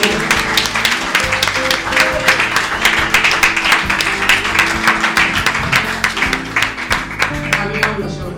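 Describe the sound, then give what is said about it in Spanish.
Audience applause for a band at an acoustic concert: dense, continuous clapping that holds steady for the whole stretch, with some voices mixed into the crowd noise. “quiero pedirles a todos un fuerte aplauso para Sapien”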